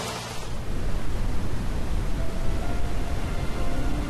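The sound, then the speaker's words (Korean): Brown noise played from a speaker to calm a dog sensitive to outside sounds, a continuous deep, rumbling hiss weighted toward the low end that holds steady after a brief lighter start. “이런 게 갈색 소음이에요”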